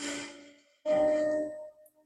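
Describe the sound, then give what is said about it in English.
A deep breath during a guided Reiki meditation: a breathy inhale fades out, and after a brief pause comes a longer, steady exhale with a faint voiced tone that trails off quietly. “Take a deep breath in”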